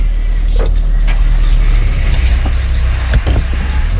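Car engine running loudly and steadily as the vehicle sets off in pursuit, a deep continuous rumble dotted with a few brief clicks and knocks.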